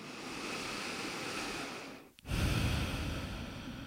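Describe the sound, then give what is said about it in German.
Deep breathing during a guided relaxation: a long, soft, airy draw of breath, a brief pause, then a fuller, louder rushing breath that carries on steadily to the end. “ein paar Mal tiefer ein- und ausatmen”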